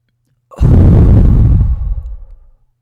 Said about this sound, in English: Let's take a deep breath into our belly. We're going to hold it for 5 seconds and then exhale.